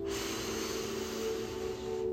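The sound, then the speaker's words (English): A deep breath drawn in during a guided healing meditation, heard as a soft, steady airy hiss that lasts about two seconds, alone and unbroken. “Take a deep breath in”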